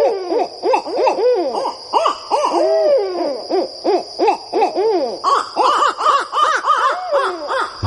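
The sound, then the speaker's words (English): A male and a female barred owl call together in a duet, with many loud, overlapping hooting and cackling calls that rise and fall in pitch in a rapid, continuous, excited chorus. “a duet between a male and female barred owl.”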